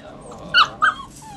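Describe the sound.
Two brief, high whimpers from a dog in a whelping kennel, the second following about a quarter second after the first, each short and fairly loud over a quiet background.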